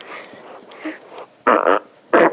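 A dog burping: two loud, short, raspy bursts near the end, the second briefer, after a stretch of softer breathy sounds.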